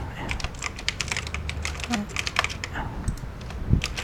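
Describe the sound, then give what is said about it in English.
Rapid typing on a computer keyboard, a dense stream of quick, crisp key clicks in an uneven rhythm that runs without pause. “I can just type, put in something like this.”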